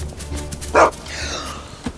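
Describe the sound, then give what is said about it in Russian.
A dog that appears as someone leaves a house gives one loud, short bark over a low, steady background. “Выходит из дома. Появляется собака.”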